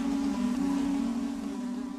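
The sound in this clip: A bee buzzing in a continuous, low-pitched drone that wavers slightly, faint and steady, with no other sounds.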